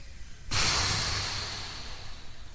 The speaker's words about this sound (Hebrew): קחו מלא מלא אוויר. ונשוף. עוד פעם.